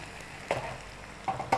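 Egg white and a stir-fried mixture sizzle in a pan: a faint, steady frying hiss broken by a few brief scraping bursts as the food is pushed around.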